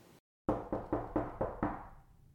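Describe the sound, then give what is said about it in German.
Six loud knocks strike an office door in a steady, evenly spaced rhythm after a brief silence, each rap ringing out with a short decaying tail. “Schwere Schritte nähern sich Sandra Admins Büro und ein lautes Klopfen ertönt an der Tür.”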